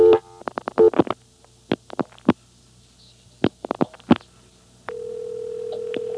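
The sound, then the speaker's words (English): Telephone dialing: a scatter of short tone blips and clicks in an uneven rhythm, followed by a steady unbroken tone that holds through the final seconds. “So I'll start dialing 4-1 things, like 4-1-2.”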